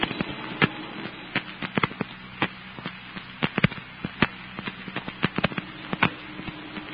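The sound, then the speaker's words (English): A large tenement house burning, with fire crackling in many sharp, irregular pops and snaps over a low, steady rumble. No voices are heard. “That big tenement house at the end of the block. Well, they'll never be able to save that. It's going up like tinder.”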